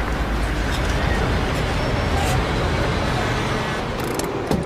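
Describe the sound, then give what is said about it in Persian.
A car with a faulty gauge pulls into a petrol station, its engine a loud, continuous low rumble that holds steady, with a brief sharper noise near the end. “ماشین وارد پمپ بنزین میشه.”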